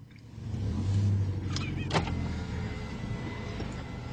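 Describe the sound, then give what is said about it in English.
A car pulls up to a restaurant drive-through menu, its steady low engine and road hum running throughout, with a couple of brief higher whirs near the middle. “First, you're going to drive up to the menu, and you're going to look at it, and you're going to decide what you want.”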